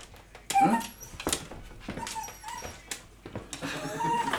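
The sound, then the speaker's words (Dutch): A dog in a garden gives many short, high-pitched yips and barks mixed with whining whimpers, in irregular bursts over a few seconds. “Mijn hond geeft even een concert.”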